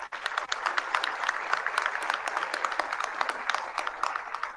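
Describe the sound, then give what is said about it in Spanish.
Audience applause at a meeting of artists and intellectuals, many hands clapping in a dense, steady patter that continues without a break. “Un aplauso para todos ellos.”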